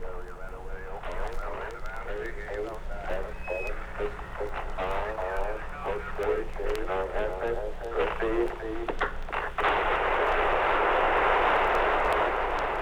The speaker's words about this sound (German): Jetzt müsste die Zündung erfolgt sein. Bange Sekunden der Ungewissheit. Und jetzt bestätigt Houston, das Triebwerk hat einwandfrei gezündet.